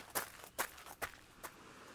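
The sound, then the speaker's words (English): Running footsteps, four faint, evenly spaced footfalls in a quick, regular rhythm, each a soft thud followed by quiet. “I'm running.”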